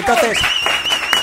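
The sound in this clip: A live studio audience at a radio show applauds, with a high sustained whistle and voices mixed into the clapping throughout.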